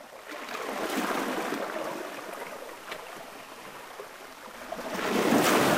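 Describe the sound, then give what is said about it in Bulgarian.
Waves washing against the shore of Lake Van at dusk: a steady, broad hissing wash that swells early, eases through the middle and surges louder again at the end, with no voices. “Брегът на езерото Ван. Здрач.”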